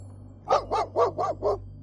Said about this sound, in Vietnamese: Đột nhiên có tiếng chó sủa vang lên.